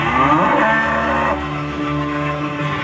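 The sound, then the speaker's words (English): A cow lets out a single long, loud moo, rich in harmonics. The call swells at the start, then settles into a lower, steady drone until the end. “Do you hear a cow?”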